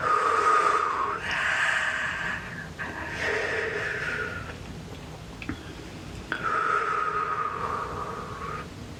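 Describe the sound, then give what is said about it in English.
Deep breaths drawn down into the belly during a guided meditation, a few long, slow, airy breaths separated by short gaps, quiet and unhurried with no talk. “Deep breath down into your belly.”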